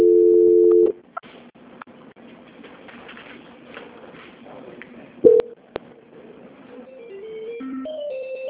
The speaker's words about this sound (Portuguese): Peço que a senhora só aguarde um minutinho que eu vou tentar transferir novamente, tá bom? Tá. Transferência.